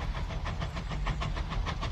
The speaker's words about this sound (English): He looks at the oncoming train.